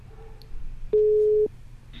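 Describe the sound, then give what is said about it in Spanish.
A single steady telephone tone of about half a second sounds while a call is placed to a friend. The flat, mid-pitched beep stands out over a low background hiss. “O le estoy llamando al amigo, bro.”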